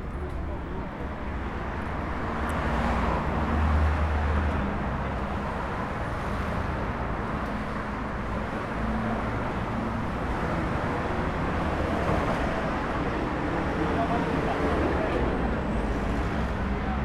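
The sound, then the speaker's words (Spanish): Busy street traffic: a dense, steady roar of passing cars and buses, loud and continuous without a break. “Y aquí mucho tráfico. Mucho, mucho tráfico, sí.”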